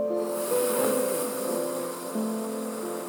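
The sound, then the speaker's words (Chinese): Breath drawn in through a U-shaped curled tongue makes a long, steady, airy hiss, held at an even level over soft sustained background tones. “现在我们一起 U 型舌吸气，”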